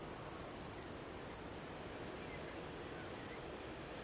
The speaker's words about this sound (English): And that wind is stripped all but the last of the leaves off the deciduous trees.